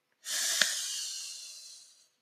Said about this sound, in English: A nice, deep sniff. Sniff with me, okay? Ready?